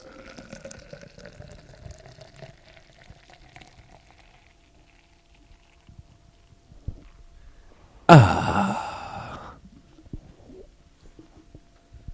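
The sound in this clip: A nitrogen-widget can of Guinness erupts in a sudden hissing, bubbling surge of foam as it is poured, bursting loudly after a quiet stretch and then fizzing down over a second or two.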